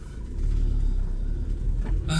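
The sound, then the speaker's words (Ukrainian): A car drives on a road in Ukraine's Donetsk region, giving a steady, loud, low engine and road rumble that holds an even drone from start to finish. “Їду я в Донецькій області.”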